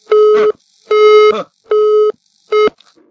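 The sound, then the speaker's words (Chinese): A telephone busy tone sounds after a call is cut off: four loud, steady electronic beeps of identical pitch with short silent gaps between them, the last beep cut short. “你看把他电话就卡掉了。”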